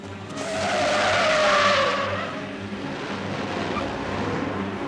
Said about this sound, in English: they skid around a corner and out of the square.